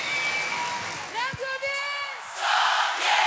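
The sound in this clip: Applause and cheering from a live music audience for performers: crowd noise with whoops and shouts rising over it, then a louder burst of dense clapping toward the end.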